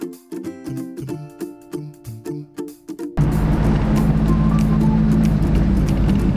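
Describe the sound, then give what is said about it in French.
A vintage Citroën Traction 11 climbs a 2 km forest road up a hill. Its engine gives a loud, steady, low drone that starts abruptly after a short stretch of music. “Un peu de sport pour ces anciennes qui en ont encore sous le capot, en prenant la direction du Mont Bar et ses 497 mètres. Une montée de 2 km de route forestière avalée sans problème.”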